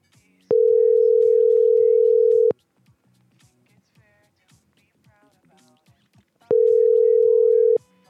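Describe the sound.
A telephone line tone sounds while a call is placed back: two long, steady, loud tone bursts. Soft voices and small noises fill the gap between them.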